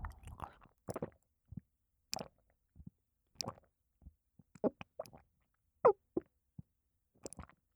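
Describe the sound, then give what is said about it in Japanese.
Eating melty, tender salmon brings soft, wet chewing and mouth clicks, many short separate smacks spread out with quiet gaps, no talking. “トロトロサーメン、いただきます。”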